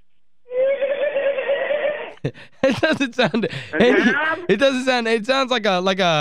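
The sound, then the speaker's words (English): A horse in a barn gives a single odd, buzzy, steady-pitched whinny lasting about a second and a half, followed by people talking. “That's one of these horses here in this barn. That didn't sound like a horse. It's a horse, all right.”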